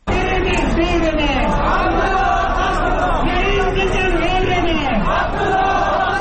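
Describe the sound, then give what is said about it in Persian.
A large crowd of Abdullah Abdullah supporters shouting and chanting while marching in an election-fraud protest in Kabul, many loud voices overlapping continuously throughout. “هزاران تن از طرفداران دست انتخاباتی عبدالله عبدالله روز جمعه در کابل راهپیمایی کرده و خواهان این شدند تا کمیسیون مستقل انتخابات آرای را که آنها تقلبی و جعلی می خوانند باطل کند.”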